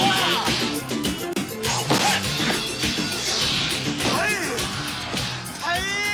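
Swords clash in a flying sword fight scene from a film. A few sharp metallic clangs and swishing strikes cut through a dense, loud mix that continues throughout.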